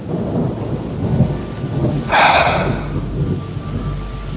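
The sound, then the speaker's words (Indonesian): Heavy rain and strong wind in a storm: a continuous hissing wash with a louder, broad surge of thunder rumbling up midway before settling back into the steady downpour. “Hujan deras dan angin kencang membuatku kedinginan.”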